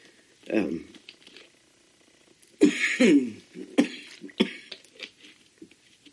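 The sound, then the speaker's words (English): Coughing: a single cough, then after a pause a cluster of several harsh coughs and throat clearing, moderately loud with quiet gaps between bursts. “I'm committed to putting this out, so you're going to have to endure the cough.”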